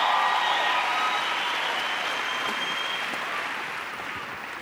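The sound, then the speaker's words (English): A church audience claps to welcome Archbishop Gladstone Botwana at the Word Explosion 2022 service. The applause is loud, dense and continuous, with faint cheers at the start, tapering gently over a few seconds. “Come on, let's give the Lord a big, powerful hand of praise as we welcome the Archbishop.”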